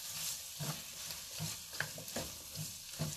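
Vegetables cooking in a pan with cream of mushroom soup: a faint, soft sizzle broken by repeated scraping stirs at a fairly regular pace, with no voices.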